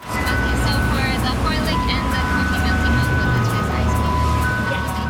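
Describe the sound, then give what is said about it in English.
An ice cream truck serving soft serve in Richmond, British Columbia plays its jingle, a string of bright melodic tones that carries over a loud, continuous rumble of background noise. “the sound of summer in Richmond, British Columbia. An ice cream truck doling out cone after cone of soft serve.”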